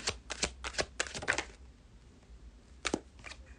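Tarot cards being shuffled and drawn: a quick run of crisp papery riffles and flicks, then a pause and a few more sharp snaps, fairly faint with no voices.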